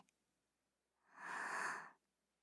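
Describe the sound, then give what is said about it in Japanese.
One slow, steady breath during a guided breathing exercise: a soft, airy whoosh that swells, holds for about a second and fades, heard alone against near silence. “ゆっくりと吐いて。ふう。ゆっくり吸って、”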